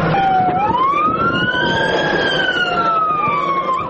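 An ambulance siren wails, bringing a child to a hospital emergency department in a conflict area, its loud continuous tone sweeping up and down in pitch over a low traffic rumble.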